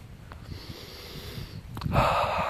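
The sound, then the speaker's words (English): Deep breathing in through the nose while walking in fresh outdoor air, soft airy rushes that end in one long, louder, hissing inhalation. “Fresh air on my nose, I breathe deeply.”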